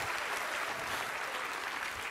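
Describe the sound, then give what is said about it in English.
Congregation applause during a church service, a thick and continuous roar of many hands clapping that stays even and unbroken throughout, with no speech on top. “Give them one more big round of applause.”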